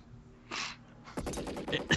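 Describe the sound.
Gunfire in a movie shootout: a short hissing burst, a pause, then a rapid, dense string of many sharp shots that grows louder toward the end.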